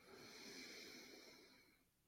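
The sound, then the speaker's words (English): A single deep breath drawn in during a calming standing exercise, heard as a soft, airy, steady hiss that fades toward the end. “Take a big inhale.”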